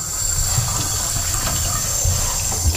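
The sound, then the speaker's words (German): Water runs from a tap as a cup is rinsed, a steady, continuous rushing splash with small uneven bumps, heard alone without voices. “Tasse erstmal abspülen.”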